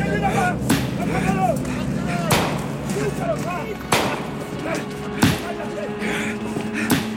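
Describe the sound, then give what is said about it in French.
Gunshots are fired at a car carrying a politician in a failed 1919 assassination attempt. Four sharp, loud cracks come at uneven intervals over a busy, steady background. “quand j'ai entendu les premières détonations, je me suis dit « Ah, tiens, il m'a manqué. »”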